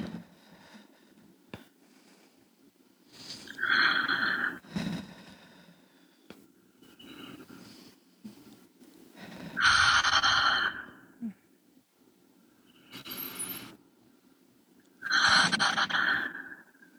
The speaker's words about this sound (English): Just taking three deep breaths in through the nose, out through the mouth.